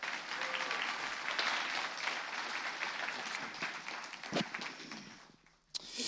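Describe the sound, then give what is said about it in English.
Audience applause welcoming a speaker to a church stage: dense, sustained clapping that stays loud and even for several seconds, then thins and fades near the end, with one sharp clap at the close. “we just ask you to put your hands together and welcome Mike McCreary to the stage today”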